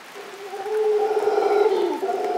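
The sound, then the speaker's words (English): Calls of large, mostly black monkeys with a golden fringe down their sides, recorded in Costa Rica: a sustained, moaning, harmonic roar that holds steady and fairly loud, dipping briefly near the end. “Andrew Roth recorded these noisy primates for the CD Natural Sounds of Costa Rica.”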